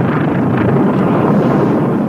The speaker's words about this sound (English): Buck Rogers in the 25th century. Something that comes to mind. I don't know. Maybe I'm wrong. Well, that's a rocket. This is a theatrical pilot opening.